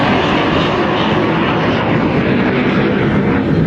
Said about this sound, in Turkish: Saatte 1930 km hıza, yani ses hızının 1,5 katına ulaşabilen uçak, F-135 motoruyla tam 43 bin libre itki üretiyor.